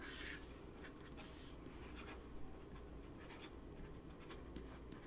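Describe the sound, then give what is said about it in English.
A pen inked with Horizon Blue scratches across paper as someone writes in print: a faint, steady run of many short, dry strokes with small pauses between them. “I'm trying to write in print and it's not working well.”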